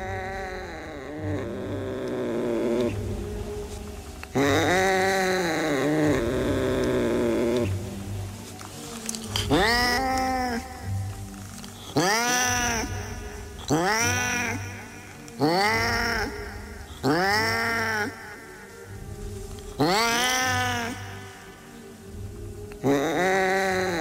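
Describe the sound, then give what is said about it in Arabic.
Loud cat meowing and caterwauling: a long series of drawn-out, wailing yowls that rise and fall in pitch, repeated many times with short gaps, alone without talk. “القطة كان صوتها مفزع قوي، لكن أنا عادي”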